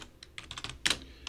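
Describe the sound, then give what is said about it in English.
Typing on a computer keyboard into a search bar: a quick, uneven run of several light keystrokes, with one louder clack near the end. “Go once again up here to the search bar and write in October”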